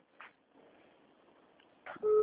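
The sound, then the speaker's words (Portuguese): A short telephone tone signals an incoming call during a phone conversation: one steady beep near the end, after a faint low hiss and some muffled noise. “tão te ligando aí, ó, tá vendo? Eu tô ouvindo aqui.”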